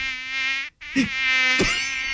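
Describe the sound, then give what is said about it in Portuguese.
A voice imitates buzzing mosquitoes with a steady, loud, nasal whine, broken by one short gap and two brief breathy bursts, with no words spoken. “Ó, os pernilongos vinham pra cima dele e os pernilongos tudo.”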